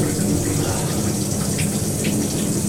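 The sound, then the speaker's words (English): Shower water runs steadily while conditioner is rinsed out of hair, a loud, unbroken rushing spray with faint splatters breaking through now and then. “I'm rinsing out the conditioner now.”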